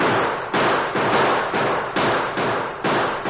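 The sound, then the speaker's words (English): Gunshots ring out in a Western radio drama shootout among rocks: a steady series of loud, sharp bangs about half a second apart, each leaving a brief rumbling decay before the next. “I think we can drive them back. Open fire.”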